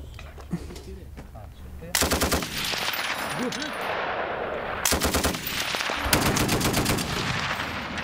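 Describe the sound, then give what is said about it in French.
Onboard machine guns of light armoured vehicles fire during a shooting exercise in three loud bursts of rapid, rattling shots, separated by gaps of lower background noise. “Ce fut aussi l'occasion pour eux de réaliser des séances de tir avec les armes de bord des VBL.”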